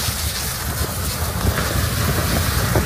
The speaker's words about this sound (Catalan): El so de molts dels vídeos que ens estan arribant a aquesta hora, aquest és el so de l'incendi de Los Gallardos.